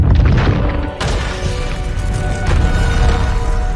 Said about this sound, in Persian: ولی وقتی ستاره به زمین خورد، شکست و باز شد و روح پلید آزاد شد.